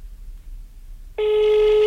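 Telephone ringback tone on a mobile phone call: a steady, loud electronic tone begins partway through after near silence and holds unbroken to the end, with no talk.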